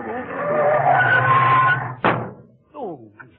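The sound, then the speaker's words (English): Car brakes are slammed and the tires skid in a long, squealing screech, then a sharp thud cuts it off, followed by a short vocal exclamation. “Look, there's someone cutting in front of you. Why don't you give him the horn? Oh, I can't. It's fast and on. No. Oh. Well, slam your brake.”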